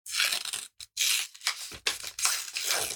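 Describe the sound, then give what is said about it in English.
A paper envelope is torn open in several loud, rough ripping bursts separated by brief pauses, each a broad, crackling tear. “I'm going to open the envelope here because this is, of course, about football.”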